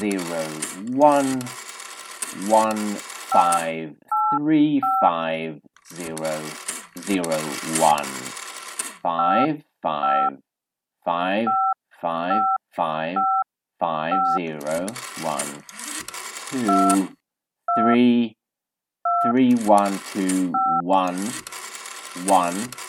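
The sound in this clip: Telephone keypad dialing tones, many short dual-tone beeps struck one by one in an irregular sequence, interleaved with a voice talking between them.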